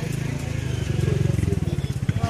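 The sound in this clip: Royal Enfield Bullet motorcycle engine with a steady, rhythmic low thumping that swells slightly in loudness as the bike is ridden, the pulses evenly spaced and continuous throughout.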